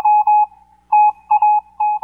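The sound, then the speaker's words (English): Electronic beeps in a Morse-like pattern: a clear, mid-pitched tone sounds in several bursts of uneven length, some short and some longer, separated by gaps, loud and alone. “Yeah, we figured out all those beeps actually are Morse code.”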